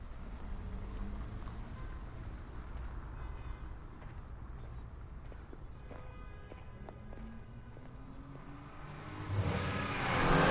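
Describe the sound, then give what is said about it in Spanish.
A car engine running on a narrow cobbled street in an action film scene, a steady low rumble that surges into a louder, revving roar near the end. “Le atropellan. Cassian sale del coche y dispara hacia él.”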